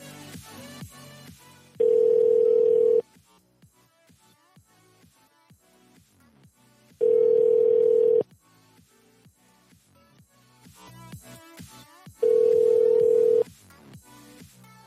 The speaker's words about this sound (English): No one wants to talk on the phone anymore. Oh, shit, this one's ringing.